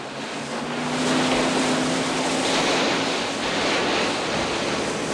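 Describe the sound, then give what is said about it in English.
A car speeds through shallow seawater, throwing up spray. A steady, loud rush of splashing water runs the whole way, with a low engine drone underneath. “He drives through some shallow water, covering the cars behind him.”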